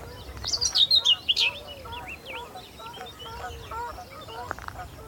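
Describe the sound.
Common whitethroat warbler song from a bush beside a deep ditch, a burst of high, scratchy chattering notes in the first second and a half, followed by fainter, scattered calls.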